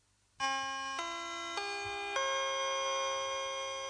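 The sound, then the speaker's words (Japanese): A rising four-note chime played before a public alert test, each bright, sustained tone stepping higher and the last note held and ringing on alone. “試験放送の内容上りチャイム音”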